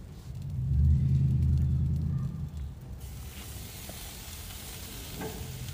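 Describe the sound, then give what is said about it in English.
Pork chops sizzle on a grill with a steady crackling hiss, heavier low rumble in the first half, then an even, continuous sizzle with no talk. “I also got some pork chops on the grill.”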